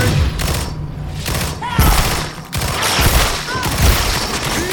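Gunfire from a video game comes in loud, rapid bursts mixed with heavy thuds and booms, several volleys cutting through a dense, noisy background.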